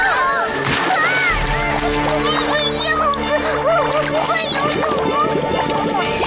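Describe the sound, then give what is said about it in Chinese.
Water splashes and sloshes continuously while voices talk over it. “天哪，好多水，我得小心一点，如果我淋湿了就会膨胀的。”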